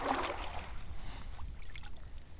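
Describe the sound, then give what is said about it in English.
Soft water swishing and trickling comes from a kayak paddled about 20 feet off a riverbank in Kentucky, with the paddler in a life jacket. The faint, continuous splashing has no voices. “she paddles her kayak about 20 feet off the bank”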